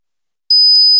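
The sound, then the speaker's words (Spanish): A steady, high-pitched pure tone imitating ear ringing (tinnitus) starts after about half a second of silence and holds loudly to the end, with a couple of brief clicks over it. “Es molesto, ¿verdad? ¿Te imaginas oírlo cada noche? Sonofin te puede ayudar porque Sonofin con ginkgo biloba y melatonina reduce los pitidos”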